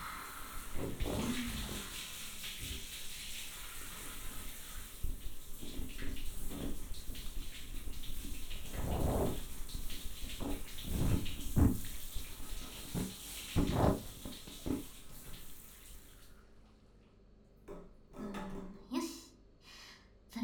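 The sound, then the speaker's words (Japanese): Hot water poured over a child's head during bath-time hair washing makes a steady, rushing splash with several louder surges, then stops near the end, leaving a few short, softer sounds. “頭にお湯かけるからしっかりお目目つぶって。”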